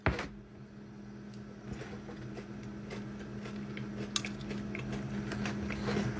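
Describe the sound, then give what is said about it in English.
Biting and chewing on a soft, melting biscuit just out of the packet: a few faint, soft clicks and squishy mouth sounds over a steady low hum, with no talk. “I only took it out of the packet and it's absolutely melting. But we're going to take a bite.”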